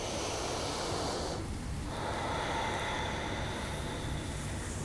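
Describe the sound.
Breath released during a yoga pose, a loud, airy rush of air that dips into a brief pause and then carries on as steady breathy hiss, with no talk.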